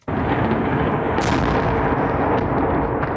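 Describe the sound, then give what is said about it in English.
Explosions shake Kyiv during a heavy overnight drone and missile attack, bursting in abruptly and holding as a loud, sustained roaring rumble that barely eases. “This felt and sounded like one of the heaviest overnight attacks Kyiv has suffered, with repeated huge ground-shaking explosions right across the city.”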